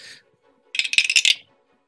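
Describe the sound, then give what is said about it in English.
Dice are rolled on a table, making a quick burst of sharp, hard clicks and clatters that settle within about half a second. A single faint clink comes just before. “Where'd I put my dice? How do I misplace dice? There it is.”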